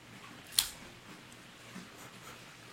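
One crisp, faint snip as the triple cap of a Cohiba Riviera cigar is cut, followed by near silence.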